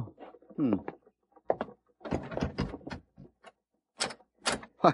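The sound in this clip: The door of a closed saloon is opened, giving a series of short wooden thuds, clacks and rattles in separate bursts with brief gaps between them.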